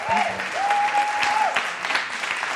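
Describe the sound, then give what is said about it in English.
Audience applause, brief, steady and fairly dense clapping with no pause, a thin high tone briefly riding over it. “And now keep that applause going”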